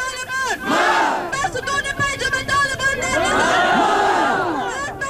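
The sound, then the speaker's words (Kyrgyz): Hundreds of protesters at a demonstration in Kabul shout death to the Taliban, a dense, loud mass of overlapping voices that chant and yell continuously without a break. “бүгүн борбор Кабулда жүздөгөн адам демонстрацияга чыгып талибанга өлүм деп кыйкырып жатышты.”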